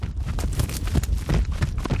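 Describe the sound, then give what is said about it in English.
Hoofbeats of an Arabian horse running in a circle on a lead rope, picked up by wireless microphones attached to each hoof: a quick, steady run of many loud thuds and clops. “I recorded an Arabian horse. Arabians have a different gait than thoroughbreds, and I put four wireless microphones on each hoof.”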